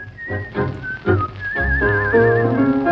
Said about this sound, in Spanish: como el silbido de este hombre